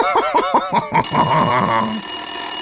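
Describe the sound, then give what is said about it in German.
Telephone ringing with an incoming call: a steady, high electronic ring begins about a second in and holds to the end, preceded by a short tuneful, voice-like passage. “das ist ein Anruf”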